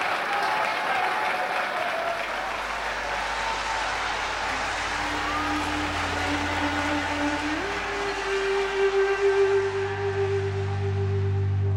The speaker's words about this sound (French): Les acclamations tournent à l'émeute.